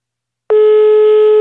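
A telephone ringback tone plays while a call is being placed: after a short silence, one steady, loud, unbroken tone begins and holds to the end.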